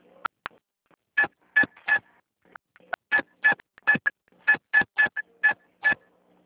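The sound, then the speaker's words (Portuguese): Telephone keypad tones entering a card number: many short, bright beeps in quick groups with brief pauses between them, loud against an otherwise quiet line. “Digite o número do seu cartão ou, se preferir e for o titular, digite o seu CPF.”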